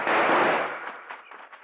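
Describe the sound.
Gunshots in a radio drama shootout: a loud, sharp blast opens, then trails off into a few softer crackling pops and rattles.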